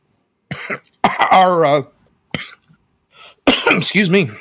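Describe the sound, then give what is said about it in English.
Coughing and choking on a tomato skin stuck in the back of the throat while eating. A few loud, strained bursts come with rasping, voiced gagging sputters, separated by short pauses. “choking on a tomato skin stuck in the back of my throat. That's what I get for eating during stream.”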